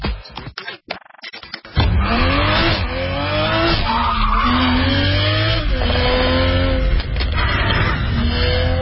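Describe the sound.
Tires squealing on a Toyota Supra sports car as it drives hard: a few choppy bursts, then a long, loud, sustained screech over the engine's roar, with only a brief dip in level near the end.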